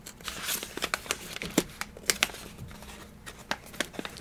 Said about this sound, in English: I really actually dig all of this packaging, this whole thing. Do you need to cut it open? Probably.